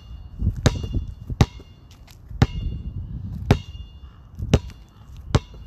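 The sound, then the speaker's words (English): A basketball dribbled slowly: six sharp, loud bounces at an unhurried, roughly even pace over a soft low background rumble. “All right, listen to this. That's a slow dribble. Most people would dribble probably around this speed.”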